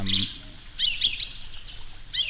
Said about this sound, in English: that bird's a little too loud